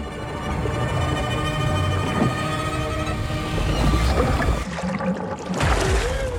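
Water splashing and sloshing as a man surfaces in a bathtub, a dense, noisy wash of sound with a steady tonal drone underneath and a stronger burst of splashing toward the end.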